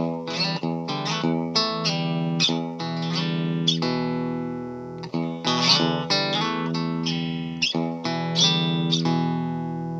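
A 1935 Rickenbacher lap steel guitar played straight into an amp with no pedals, giving a clean sequence of many plucked notes and chords that ring with long sustain, bright and steady, without voices.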